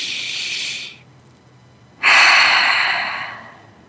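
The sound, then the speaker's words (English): A deep breath drawn in as a soft, airy inhale of about a second, then a short pause and a louder, longer breathy exhale that slowly fades. No talking. “take a deep breath again.”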